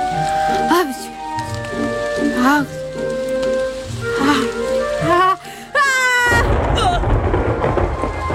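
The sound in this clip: Rain pouring down as a broad, steady hiss that swells in over the final two seconds, following a stretch of tonal, melodic sound.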